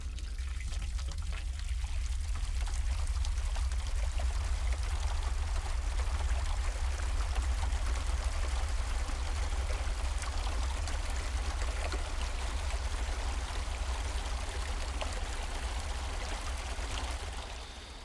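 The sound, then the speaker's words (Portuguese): Steady rushing and pouring water from a washing machine, used as music in one unbroken track, runs evenly throughout over a constant low hum. “e os sons são provenientes de uma máquina de lavar”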